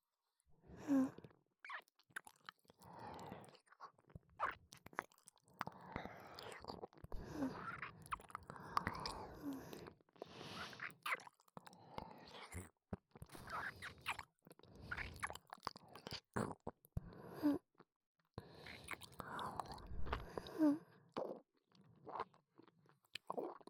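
Wet chewing and mouth sounds of someone eating, with soft crunches, squishy smacks and whispery breaths in an uneven rhythm broken by brief pauses, faint and close throughout.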